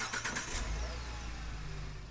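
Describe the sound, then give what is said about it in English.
A van engine runs with a steady low rumble, one of two vans delivering internet around the Waianae area on Oahu; a few brief higher clattering sounds come early, then the engine drone continues evenly. “That's the sound of one of two vans that will be driving around the Waianae area, delivering internet to students who need it.”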